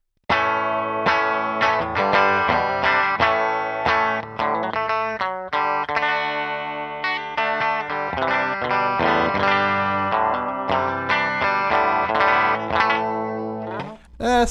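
Electric guitar played through effects pedals, including a Chellee pedal with every knob set to the middle and all switches centered. A distorted, effected tone rings through continuous chords and notes that sound loud and full, then the playing cuts off abruptly near the end.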